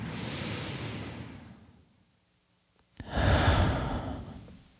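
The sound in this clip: One person takes a deep breath: a long airy inhale, a short silent hold, then a fuller, louder exhale that fades out.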